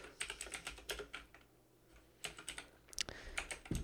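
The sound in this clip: Rapid typing of messages, a busy run of key taps that pauses briefly midway and then resumes in quick clusters, with no voices.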